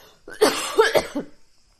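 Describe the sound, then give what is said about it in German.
A person coughs a few times in a quick, harsh burst, loud and alone with no talk, before the sound trails off into quiet. “Warte, ich muss husten.”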